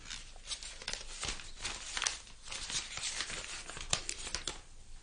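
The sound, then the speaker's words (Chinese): Gift wrapping torn open around a set of twenty books, a quick continuous run of ripping and crinkling paper, fairly faint, with scattered sharper tears. “我买咗啲嘢送俾你，你拆开嚟睇下。”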